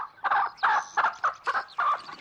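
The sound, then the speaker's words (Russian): Clucking from a red rooster in a farmyard: a quick series of short, harsh, throaty clucks in an uneven rhythm, fairly loud, with no voices. “По двору бежит рыжий петух.”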